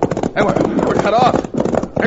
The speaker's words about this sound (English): Turn those horses, boys, and let's get out of here!